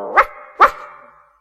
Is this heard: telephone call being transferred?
no